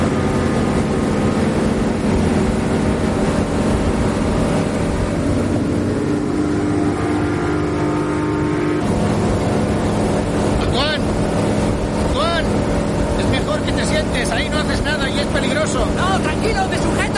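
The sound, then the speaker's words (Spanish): An old, rattly motorboat engine roars as the boat accelerates away from a barge. A loud, continuous drone is mixed with wind buffeting, and voices rise over the engine later on. “Agarraos bien porque voy a darle caña. No lo veréis, esto es un cacharro. Acelera y se separa de la barcaza.”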